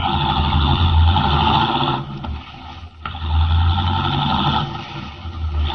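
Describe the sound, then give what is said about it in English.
A car drives rapidly away along a road, its engine giving a loud, steady low drone that dips briefly in the middle before returning at full strength. “Leaving the Teufel standing in the road, Henry Miller, the Atom Man, drives rapidly away.”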